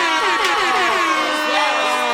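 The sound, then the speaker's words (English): A studio audience cheers and whoops, a dense, steady wall of many voices that stays loud without a break. “First off, we can't ignore our studio audience. Studio audience! Yes! Yes! Studio”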